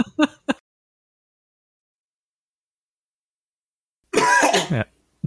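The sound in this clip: Throat clearing and coughing from a person ill with a fever: a few short, sharp bursts at the start, a stretch of silence, then a longer, rough, voiced clearing near the end.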